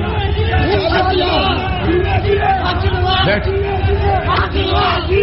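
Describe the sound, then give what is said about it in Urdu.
A crowd chanting traditional slogans at a political rally, many voices shouting together in a loud, continuous, rhythmic roar. “آپ روایتی نعرہ بازی کر رہے ہیں, روایتی نعرہ بازی.”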